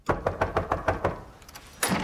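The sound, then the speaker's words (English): Knuckles rapping on a door at night, seven quick, evenly spaced knocks in a steady rhythm, followed by a brief pause and a short, louder noise. “It's night as Eilish knocks for a friend.”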